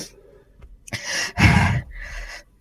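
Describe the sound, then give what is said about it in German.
A person taking deep breaths: a few audible, airy inhales and exhales, with one heavy, loud exhale in the middle, followed by a softer breath. “Ja, ich, ich atme ein paar Mal tief durch.”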